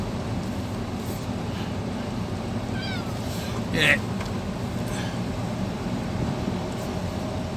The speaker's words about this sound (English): You don't have the luxury of whining, cat. You're a good cat.